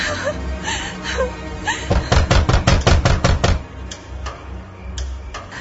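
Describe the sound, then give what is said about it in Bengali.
Heavy knocking on a door at night: a rapid burst of loud, repeated thuds in quick succession, with faint voices before and after. “এত রাইতে কি দরজায় ধাক্কা দে?”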